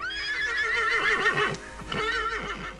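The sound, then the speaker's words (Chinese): A horse hitched to a carriage whinnies as it sets off at speed through snow: a long, high, wavering neigh followed by a second, shorter whinny, loud and clear. “马车又套上了马，冒雪疾驰。”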